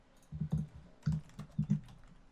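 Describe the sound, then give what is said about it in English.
Typing on a computer keyboard: a few irregular clusters of soft, thudding keystrokes, moderately loud, with no voices over them. “Type in red kangaroo.”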